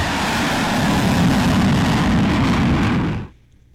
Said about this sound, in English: it looks to be like a fighter jet that's got his afterburners on